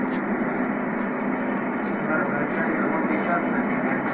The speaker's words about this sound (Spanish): Es un avión este, todo blanco con una franja anaranjada que vuelan, regularmente vuelan para España. A ver si se alcanza a oír las turbinas.